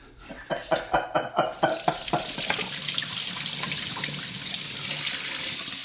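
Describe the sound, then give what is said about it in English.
Potatoes for latkes are washed in water to rinse off their starch: a run of quick, rhythmic sloshing splashes, then a steady stream of running water. “We are washing the starch off of the potatoes.”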